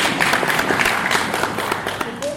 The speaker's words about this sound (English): Thank you very much. Clap for yourself.